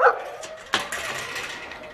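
Dogs barking on a parking lot: a couple of short, sharp barks, one right at the start and another under a second later, over a low steady background with no talk.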